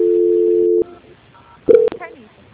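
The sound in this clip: Telephone line tone while a bank customer's call is transferred: a steady, even tone that stops abruptly, then a stretch of quiet before a short, loud electronic beep.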